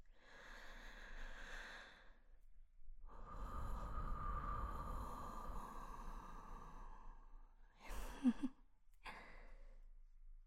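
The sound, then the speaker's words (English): Someone gently blows on a cup of tea to cool it. One long, soft, steady breath lasts several seconds, then two short breathy puffs follow, all quiet and with no talk. “Just breathe in and out and blow on the cup of tea just like this.”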